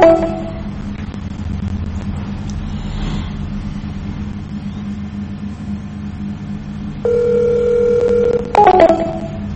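Telephone keypad tones dialing into a voicemail system: a sustained beep, then a few short tones, heard over a steady low rumble like a car engine.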